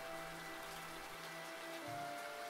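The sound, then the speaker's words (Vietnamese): Heavy rain falling at night, a dense, unbroken hiss of countless drops holding a steady level throughout, with no voices. “Trời càng về đêm lại càng mưa tầm tã, mưa như chút nước.”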